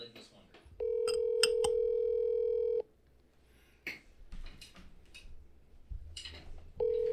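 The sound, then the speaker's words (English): Telephone ringing on a call: a steady, mid-pitched electronic ring tone lasting about two seconds, then a pause filled with faint clicks and noise, and the next ring starting at the very end. “I liked it better when people picked the phone up fast. First ring.”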